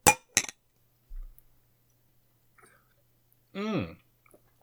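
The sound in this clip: A glass of sparkling wine and a can clink together in a toast, giving two sharp, bright clinks in quick succession, followed later by a brief vocal sound.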